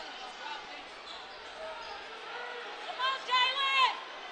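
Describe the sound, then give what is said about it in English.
A basketball is dribbled a couple of times ahead of a free throw by the Wildcats' shooter, the soft bounces buried beneath steady arena crowd murmur and a commentator's voice. “Barbera gets the ball. Dribbles it once, then a second time, and shoots, and hits it.”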